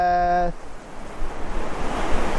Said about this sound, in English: but it's very windy up here and very precarious.